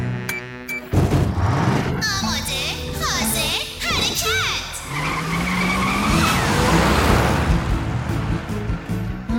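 Race car engines rev and tires squeal as the cars start up and pull away at the start of a race, a loud, continuous roar with whining pitch sweeps.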